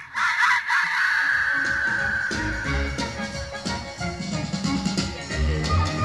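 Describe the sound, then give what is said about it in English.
A voice imitates a crow's caw as part of a run of old-time hollers. The cries are loud, raspy and caw-like, with a long held call at the start followed by rougher, busier calling through to the end. “Then I'll end up with a crow.”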